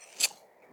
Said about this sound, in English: He's cutting off his luscious locks.